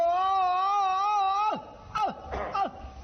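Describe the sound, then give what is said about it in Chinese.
A male voice does stylized Peking opera crying in the old-man role: a long, sustained, wavering wail, then three short sobbing cries that each drop sharply in pitch. “老生一哭是这样。”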